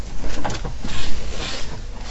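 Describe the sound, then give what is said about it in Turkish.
A door eased open a little wider during a lesson gives a few uneven, rumbling, scraping bursts that swell and fade in turn, fairly loud, with no clear talk. “az daha açalım mı kapıyı?”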